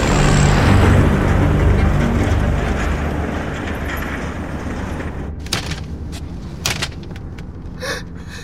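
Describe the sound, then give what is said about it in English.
A snowplow drives past on a snowy road and throws snow onto an SUV. Its loud, broad rumble fades gradually over several seconds, and a few sharp knocks follow near the end. “The snowplow drives past them, shooting more snow onto their SUV.”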